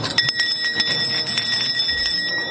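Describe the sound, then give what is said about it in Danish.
A bell rung when polling stations close gives a steady, bright metallic ringing with sustained high tones and many rapid clattering strikes throughout, with no voices. “når valgstederne lukker, så bliver du ringet på klokken”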